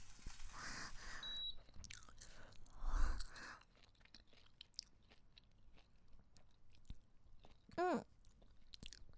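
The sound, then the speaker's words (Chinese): Chewing of freshly stir-fried eggs eaten while still very hot, heard as a few faint, soft crunching bursts separated by quiet stretches. “好香！我先尝尝。”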